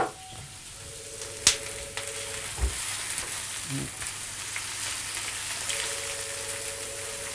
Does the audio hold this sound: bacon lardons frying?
yes